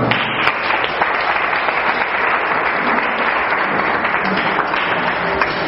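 Steady applause from a church audience standing to acclaim during a service, with dense, continuous clapping that holds at an even level from start to finish with no break.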